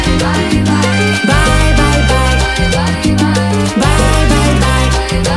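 A song from a five-track EP plays steadily and loudly for the whole stretch, with a pulsing beat and heavy repeating bass notes under a dense band mix.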